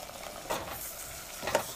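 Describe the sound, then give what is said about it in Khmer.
Toasted rice stirred into a cooking soup: faint, soft scraping stirs over a low steady hiss, with two brief louder swishes. “បន្ទាប់មកយើងក៏បងអង្ករលីងចូលដើម្បីរោយពីលើឲ្យវាឆាប់ទន់ចឹងយើងឃើញថាអង្ករលីងនេះបានបោកហើយនឹងលីងរួចជាស្រេច”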